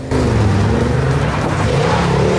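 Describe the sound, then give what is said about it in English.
A car speeding at night during a chase, its engine giving a loud, steady roar that holds from start to finish with no break or voices. “Thord is speeding along at night, with Jean chasing close behind.”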